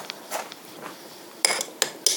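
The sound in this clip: A spoon scraping and clinking in a pot of thick, nutmeg-spiced mixture being stirred, with a few faint scrapes followed by three sharper clinks near the end.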